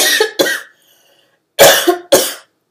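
Coughing brought on by strawberry seeds caught in the throat: four harsh, loud coughs in two quick pairs, split by a short silence.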